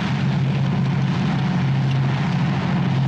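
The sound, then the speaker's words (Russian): Engine rumble of a tank driving out through thick black smoke on a battlefield, a constant low drone under broad hissing noise, loud and unchanging throughout with no voices. “Из-за густого черного дыма выезжает танк Дедюхина.”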